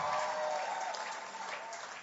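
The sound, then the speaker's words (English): A church audience applauding during a celebration honouring a pastor's marriage. Steady, dense clapping fills the whole clip and eases slightly toward the end. “I don't want any bad belly around here. If you want to clap, clap well.”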